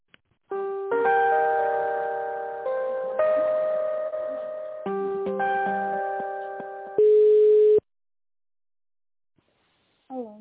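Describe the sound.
An electronic melody plays on a telephone line while a call is transferred. Sustained synthetic tones shift pitch in repeated phrases, then a short burst of noise and silence follow, and a brief voice comes in at the end.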